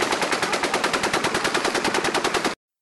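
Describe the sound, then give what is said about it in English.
An M240 machine gun fires one long, rapid burst of many evenly spaced, loud shots that cut off abruptly, leaving silence. “Las Vegas shooting. Oh, shit. Seriously, I don't know what's going on. M240 machine gun.”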